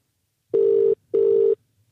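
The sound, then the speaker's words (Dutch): Two steady, even beeps of a telephone ringing tone as an international call is placed. Each tone lasts under half a second with a short silent gap between them. “Ik zeg, we gaan hem bellen.”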